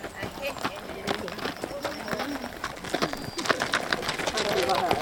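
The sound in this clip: Horses walking at a calm pace in a line make an irregular clip-clop of many hoofbeats, steady throughout, while people talk over them.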